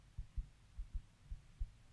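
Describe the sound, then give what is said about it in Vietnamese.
A heartbeat sound effect for a hard-pounding heart: three low, muffled double thumps in a steady lub-dub rhythm, standing alone over a faint hum. “Tim tôi đập thật mạnh.”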